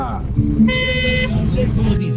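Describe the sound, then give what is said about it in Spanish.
Car horn honking, one sustained bright honk lasting under a second, heard under people talking. “y ahí va la bocina”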